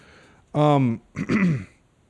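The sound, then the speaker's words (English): Two bursts of rough throat clearing from one person, the first a strong voiced rasp and the second broken into a few shorter, harsh pieces, loud against a quiet background. “sorry, people, for my coughing things. I don't know what's happening.”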